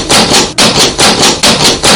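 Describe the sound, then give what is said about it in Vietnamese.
Rapid, urgent knocking on a door, a sound effect of loud, heavy blows in fast clustered bursts separated by short breaks. “Đêm khuya đang yên tĩnh, bỗng vang lên tiếng gõ cửa dồn dập.”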